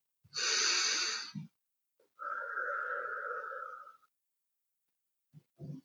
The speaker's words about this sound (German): atme mal ganz tief ein und wieder aus.